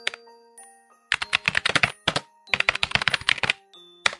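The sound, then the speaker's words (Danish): Typing by a librarian on her computer keyboard: two quick runs of crisp, clattering key clicks separated by a short pause, with a few isolated taps at the start and end. “Lad mig lige se, siger bibliotekaren og begynder at taste på hendes computer.”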